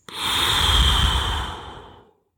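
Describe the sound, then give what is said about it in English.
One long, slow breath drawn during a paced breathing exercise: a soft, airy rush of air that holds steady for about two seconds, then fades out. “So breathe in and then you breathe out, then breathing out.”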